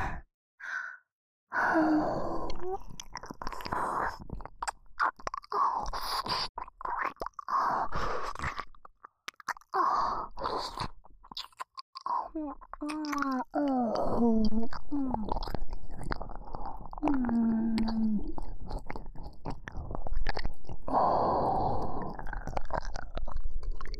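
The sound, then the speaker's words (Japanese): Wet chewing and biting of a soft ear, close-up mouth sounds in a role-play, mixed with breathy sighs and a soft voice speaking over stretches of the chewing. “この耳、柔らかくて美味しそうな耳、今日もいただいちゃおうかしら。”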